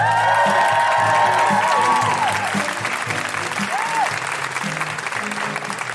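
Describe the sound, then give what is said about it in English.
Audience applause and cheering with high whoops from a live comedy crowd at the Edinburgh Fringe, with steady clapping throughout, a burst of whoops near the start and another shortly before the end. “Put your hands together and make incredible woohooing noises for Hench herself, the wench herself.”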